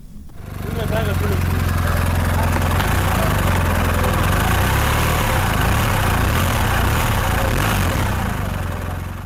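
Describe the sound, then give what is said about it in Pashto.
Motorcycle engine running steadily, its loud, rough drone starting within the first second and holding at a constant level throughout without clear revving. “دا راپور اوړو چې فرهاد شینواری جوړ کړی دی او د ضیاءالدین شینواری د موټر سایکل په شور پیلېږي.”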